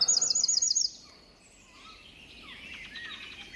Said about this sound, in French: Une petite chouette avec un troglodyte.